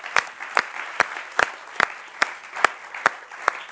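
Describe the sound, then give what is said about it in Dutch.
A church audience claps in unison during a bilingual Dutch and English service. About nine sharp, evenly spaced claps sound at a steady beat. “Laten we hem een applaus geven.”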